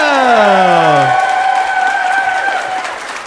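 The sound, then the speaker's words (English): Applause and cheering from an audience welcoming guests onto a stage, with a voice shouting over the opening. The clapping carries on as a loud, dense, steady roar that fades slightly toward the end. “would you please put your hands together and welcome to the stage my special guests”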